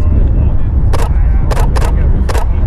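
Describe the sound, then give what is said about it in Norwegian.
Four sharp camera shutter clicks as a photo is taken of someone standing by a road, spaced unevenly over about a second and a half above a steady low rumble. “Jeg tar et bilde av deg, og så går jeg og prater med han.”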